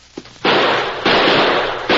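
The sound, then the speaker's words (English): Gunshots from a Winchester rifle and a six-shooter: a faint pop, then three loud, harsh blasts in quick succession, each trailing off into a long, noisy rumble. “It's good I carried the Winchester. Here. Let me use that six-shooter you're carrying.”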